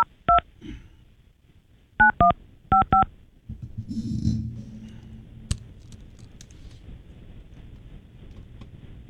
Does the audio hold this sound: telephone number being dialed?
yes